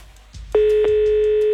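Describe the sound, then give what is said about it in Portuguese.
Telephone ring tone on a line during a call-in contest: a single steady, mid-pitched electronic tone starts after a short quiet stretch and holds unbroken, fairly loud, to the end. “Primeiro toque.”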